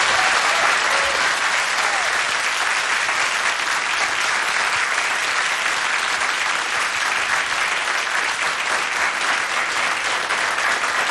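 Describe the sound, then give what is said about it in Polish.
Loud, sustained audience applause in a concert studio as a band is introduced: thick, continuous clapping from a crowd that holds at a steady level throughout. “I teraz proszę o wielkie brawa.”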